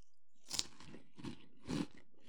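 Three faint crunchy bites and chews of a pizza-flavoured snack, each a short dry crackle separated by brief pauses, with no talk.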